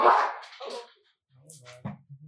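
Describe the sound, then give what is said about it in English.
A dog barking during a prayer talk, a few short, high yips after a brief voice at the start and a moment of silence. “that's our rosary dog driving out the devil.”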